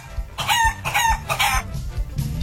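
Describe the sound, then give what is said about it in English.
Chicken crowing in three loud, harsh, harmonic bursts close together. A quieter clucking tail and low rumbling background noise follow. “Yeah, that was an animal. That's right. That was a chicken.”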